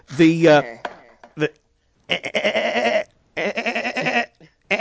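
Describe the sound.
A screaming goat sound effect: a short, harsh, wavering bleat at the start, followed by people talking.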